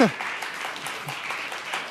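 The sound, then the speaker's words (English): Audience applause at a church gathering fills the stretch as a steady, moderately loud clatter of many hands, with a brief voice cut off at the very start. “if you're new, if you're, you can clap for that, right?”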